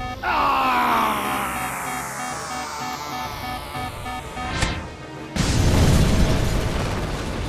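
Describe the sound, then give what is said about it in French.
A blast from a ray shot fired at the speaker: sweeping, falling electronic tones give way to a sharp rising whoosh, then a loud, broad boom that hangs on and slowly decays. “Tire dans 5, 4, 3, 2, 1. Mais qu'est-ce que... Non ! Il me tire dessus !”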